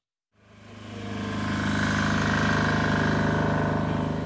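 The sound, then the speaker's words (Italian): A small generator runs at full power outside a military command post in the Kupiansk region. Its engine rises from silence into a steady, loud, rapidly pulsing drone that holds constant to the end. “All'esterno ci sono pochi segni di presenza umana, c'è solo un piccolo generatore che funziona a pieno regime.”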